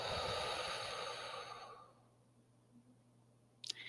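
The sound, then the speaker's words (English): A deep, slow breath, breathed in through the nose and out through the mouth, sounds airy and soft, then fades after about two seconds into near silence with a faint click near the end. “Taking another deep breath in through the nose, out through the mouth,”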